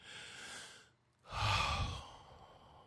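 A deep breath, drawn as two soft airy breaths separated by a short pause, the second louder and fuller than the first, with no talking.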